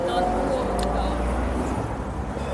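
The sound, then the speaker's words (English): Voice imitating the engine of a Maserati Quattroporte GTS: a steady, growling, breathy drone held throughout at even loudness. “that noise, that was a Maserati Quattroporte. I suspect the GTS model. Such a cool noise.”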